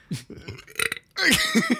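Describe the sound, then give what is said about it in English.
Burping after tasting flavored sparkling water: a few short, croaky voiced belches followed by a longer, louder rumbling burp with a rough, gurgling tone. “We should just title this the burp episode.”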